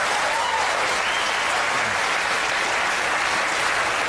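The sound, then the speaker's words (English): A debate audience applauds after a mention of executions in Texas, a dense, steady clapping that stays at an even level throughout. “The mention of the execution of 234 people drew applause.”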